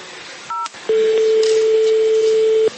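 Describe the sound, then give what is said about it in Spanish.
A phone keypad tone marks a press of zero in an automated menu: one short two-note beep, then after a brief pause a longer, steady, lower single tone that lasts nearly two seconds. “Marcó el cero. Y marqué el cero.”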